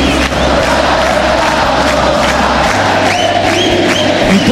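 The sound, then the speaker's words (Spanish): Large crowd of fans cheering at the farewell of Argentine football star Messi, a loud, dense roar that holds steady throughout. “vamos mechando por esto que está ocurriendo y quiero que nadie se lo pierda. Escuchá al público.”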